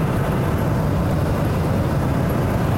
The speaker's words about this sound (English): The sun is rising on Christmas Eve morning. And I'm driving to work.